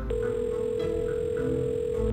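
A single telephone tone sounds while a call is being placed, a steady, unbroken note lasting about two seconds over low background noise.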